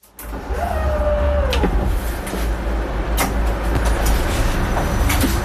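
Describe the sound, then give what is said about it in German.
Inside a partly automated narrow-gauge regional train on a Swiss line, a loud, steady rolling rumble carries a few sharp clicks and a brief falling motor whine near the start. “Wir sitzen im Waldenburgerli, auf der Strecke zwischen Liestal und Waldenburg.”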